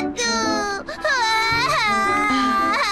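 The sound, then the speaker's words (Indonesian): A child wails after dropping an ice cream, with loud, high-pitched crying in continuous sobbing bursts whose pitch wavers and breaks, and a brief catch of breath partway through. “Nanti kubelikan lagi. Tolong berhenti menangis dan naik ke dalam bis ya.”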